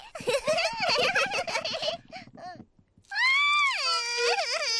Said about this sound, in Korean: 리처드, 얘 왜 울어? 계단을 내려오는 게 무서워서 우는 거 아닐까?